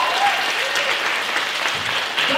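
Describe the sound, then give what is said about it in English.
Applause from a live audience at the end of a show, loud and continuous clapping that rolls on steadily with only slight swells. “And applause he didn't deserve!”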